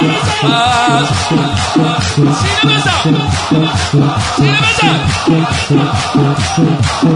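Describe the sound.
A crowd beating their chests in a Persian-language mourning ritual, with loud, steady, evenly spaced thumps repeating many times, accompanied by chanting voices.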